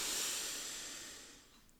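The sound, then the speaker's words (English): A deep breath drawn in: one soft, airy inhale heard alone as a quiet hiss that slowly fades over under two seconds. “let's just take a deep breath together. Ready? Let's take a breath in”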